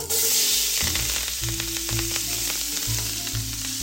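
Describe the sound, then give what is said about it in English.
Onions, celery and garlic frying in rendered pork fat in a hot skillet: a loud, continuous sizzle and crackle runs throughout, with faint stirring scrapes and low knocks underneath. “now I'm gonna add my vegetables. Okay, in go the onions, celery, and garlic.”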